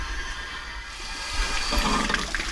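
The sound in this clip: Water is poured onto a vine during watering, a soft rushing hiss that swells louder about halfway through and carries a few scattered splashes.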